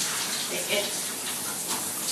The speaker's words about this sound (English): Alright, sorry, I'm just getting my hair wet. I don't like dry hair when I'm in the shower.